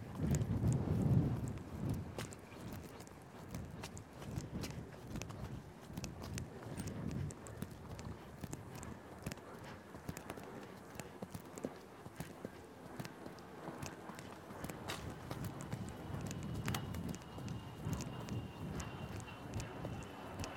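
Hoofbeats of a horse trotting under a rider during schooling work, a steady, rhythmic clip-clop of many footfalls that continues throughout at a fairly even loudness, with no voices.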